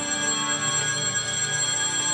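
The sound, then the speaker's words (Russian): A theatre's third bell rings just before a performance begins, a steady, unbroken electric ringing that stays even in loudness throughout. “что это такое звонит? А это третий звонок. Что такое третий звонок? Ну, после третьего звонка сразу начинается представление.”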